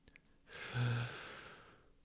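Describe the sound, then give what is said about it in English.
A single deep inhale during a breathing exercise: one soft, airy breath that swells and then fades, quiet and alone, with no talk. “I want you to inhale.”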